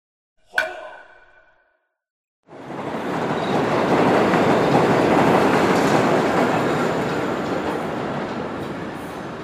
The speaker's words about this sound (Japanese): すみません。これは新宿へ行きますか? 行きません。これは回送電車です。